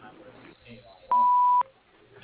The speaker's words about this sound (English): Please leave a short message after the beep, and we'll get back to you as soon as we can.